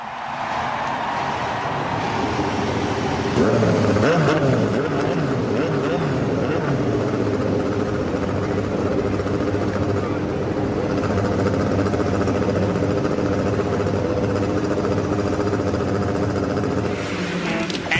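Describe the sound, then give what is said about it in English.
Race car engines start at the Indianapolis 500. Many engines overlap in a dense, loud, rumbling roar that holds steady for the whole stretch and swells slightly early on. “Ladies and gentlemen, start your engines.”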